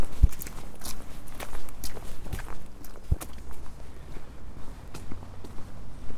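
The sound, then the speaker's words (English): Footsteps of someone walking through Swanville Nature Reserve: many soft, irregular steps scuffing along at an easy pace, with no voices. “I seem to be walking through Swanville Nature Reserve. Must be close to Swanpool now.”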